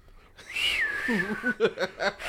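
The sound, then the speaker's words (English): A person imitates poor whistling with a wobbly, breathy whistle tone that slides downward and then breaks into uneven, voiced warbling bursts over a hiss of breath. “like poorly whistling.”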